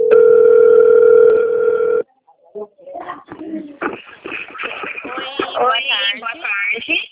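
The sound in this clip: A steady ringback tone sounds on an outgoing phone call, a loud even buzzing drone lasting about two seconds before cutting off. A voice then comes over the line.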